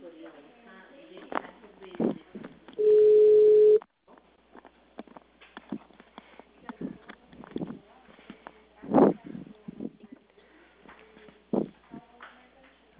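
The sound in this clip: A single steady telephone ringing tone, about a second long and mid-pitched, sounds while a call is placed, with talk and rustling before and after it.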